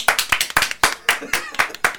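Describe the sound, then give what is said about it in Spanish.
Hand clapping in a studio, with crisp, distinct claps repeating at a steady, even rhythm of about four per second, sharp and bright, with quieter claps between the main beats. “Que como siempre le gusta un aplauso. Sí, sí, a él no, le gusta que lo aplaudan.”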